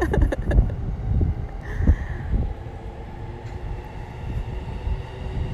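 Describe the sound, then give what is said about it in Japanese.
A train running on a neighbouring line makes a steady, broad low rumble, with a few sharp clattering beats at the very start. “はい、また別の線の電車が走っております。賑やかしくてすみません。”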